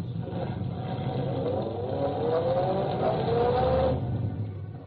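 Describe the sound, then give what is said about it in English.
A car accelerating as the driver steps on the gas. A steady engine drone climbs in pitch over several seconds, then eases off near the end. “As I stepped on the gas...”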